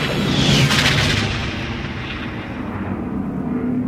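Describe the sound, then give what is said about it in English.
The Death Star laser blast from Return of the Jedi strikes as a loud, booming burst with a bright hissing edge, then decays into a low, fading rumble. “That blast came from the Death Star. That thing's operational.”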